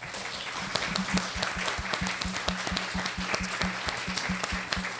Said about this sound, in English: Can we give it up for our authors?